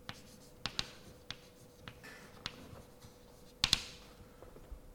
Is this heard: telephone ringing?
no